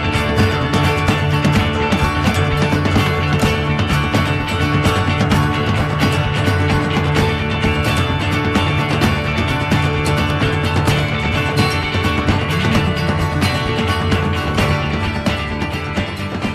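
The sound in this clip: A song with dense, full instrumental backing plays continuously at a loud, steady level, with no talking over it.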